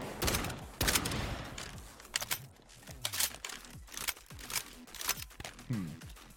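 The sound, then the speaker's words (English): Shotgun fire from a video game, many sharp, loud blasts in quick succession, layered over a low, pulsing wub-like electronic background. “Man, I'm not a fan of shooting games, but shooting game sound effects, like gun sound effects, are just beautiful.”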